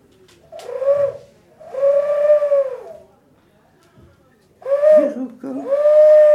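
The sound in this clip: A pigeon cooing in four drawn-out, low, warbling coos, loud and clear, grouped as two calls, then a pause, then two more calls.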